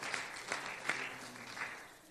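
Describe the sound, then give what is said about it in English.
A church audience claps in a sparse, scattered way, with a few soft, separate claps spread across two seconds rather than sustained applause, all fairly faint. “Come on, clap for that.”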